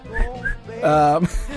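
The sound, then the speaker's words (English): A person whistles a short tune in a few high notes, with a longer held tone in the middle, the whistling brief and slightly faltering. “I'm about to do the whistle part, though.”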